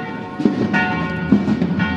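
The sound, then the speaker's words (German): Church bells in Zagreb, Croatia, ring at noon. A few strikes stand out, and their tones overlap in a sustained metallic wash of ringing partials with no voices. “Das sind sie, die Glocken nicht von Rom, die Glocken von Zagreb, mittags um 12 Uhr”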